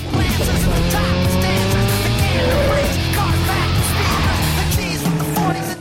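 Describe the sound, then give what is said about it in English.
Roaring car engines from a street race between a brand new bright red Dodge Viper and a 1970s Chevy Monte Carlo, with sustained high engine whine shifting in pitch and bursts of tire squeal as one car swerves in front of the other. “They race side by side along the street till Clay in his brand new bright red Dodge Viper swerves in front of Sean in his 1970s Chevy Monte Carlo.”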